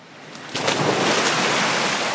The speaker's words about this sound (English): This is a swimming pool. And why are we at a swimming pool?